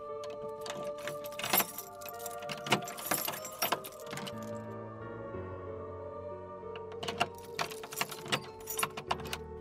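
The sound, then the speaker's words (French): Many door locks being unlocked at a hotel entrance produce scattered metallic clicks, clanks and key-like jangling, quiet and irregular over a steady low hum. “Après avoir décliné notre identité, nous avons entendu les nombreux verrous s'ouvrir.”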